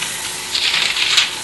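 Bible pages rustle as someone leafs through to the Gospel of John, chapter 13, making a short run of soft, papery swishes and flicks over a faint hiss.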